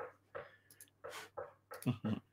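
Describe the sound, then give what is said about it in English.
A big dog's tail whacks a chair, making several quiet, irregular thumps and knocks in uneven bursts separated by near silence. “Is that the dog? That is the dog's tail whacking my chair.”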